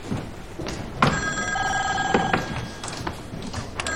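A telephone rings with a sustained, bright, trilling electronic tone lasting about a second, over a steady background hiss.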